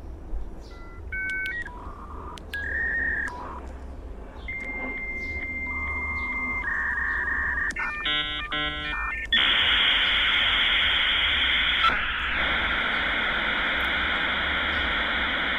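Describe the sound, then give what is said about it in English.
A dial-up modem connects over a phone line. It plays a run of dialing tones and beeps of shifting pitch, then a quick tone sequence, then harsh hissing and screeching handshake noise that lasts steadily to the end. “you couldn't make a phone call unless you had a second phone line basically installed just for data. You know, and that's the thing that went like, let me find the sound effect. And somehow you had to hear this every time.”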